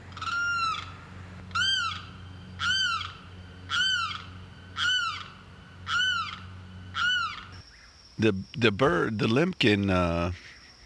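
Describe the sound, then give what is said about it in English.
A limpkin squawks in the evening, giving seven loud, evenly spaced, arching wails. A denser, rougher burst of calls follows. “The limpkin is kind of known for doing it squawking at night a lot. I mean, I hear the thing squawking day and night”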